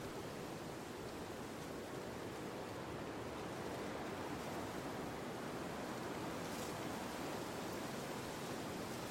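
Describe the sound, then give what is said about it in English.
Ocean surf washing up a beach, a steady, unbroken roar of rushing water that stays at an even loudness throughout, with no distinct separate wave crashes standing out. “Once the wave reaches the deck, a large lunge of water reaches up to the beach as far as it can.”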